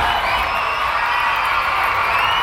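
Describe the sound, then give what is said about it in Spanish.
Loud crowd applause with cheering and whoops, a dense unbroken roar of clapping and raised voices held at steady level throughout. “Este aplauso es para todos los que ya están despiertos y bien bañados en estos momentos.”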